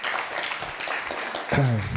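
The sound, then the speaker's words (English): Audience applause: dense, steady clapping from many hands throughout, with a voice briefly heard over it near the end. “So let's give a round of applause to Gopal Rai Prabhu for coming all the way to Wales.”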